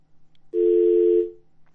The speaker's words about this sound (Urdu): آج ٹیلی phone line میں کم از کم جو یہاں سے ہمارے پاس سے جا رہی ہیں پاکستان، اس میں پرابلمز ہیں.